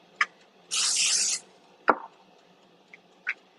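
Hissing spray from a spray bottle while cooking: one continuous burst lasting well under a second, with a few sharp clicks and taps scattered before and after it in otherwise quiet surroundings.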